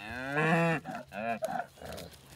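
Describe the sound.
Cattle in a herd moo several times, deep resonant calls that swell and fade in an uneven sequence, with one long low moo followed by a few shorter ones.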